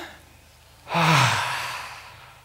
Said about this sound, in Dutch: Even allemaal heel diep adem en dan. Nou, doe dan even.